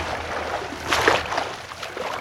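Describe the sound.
Lake water sloshing as someone swims through it: a soft, continuous watery wash with a louder splash near the middle, heard alone.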